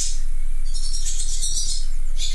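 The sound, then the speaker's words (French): High, bright twittering chatter of barn swallows inside a barn, running continuously with short bursts of call notes over a steady low hum and hiss. “Elles nichent dans les granges, celles-ci. Ah, si. Les hirondelles. Les hirondelles rustiques.”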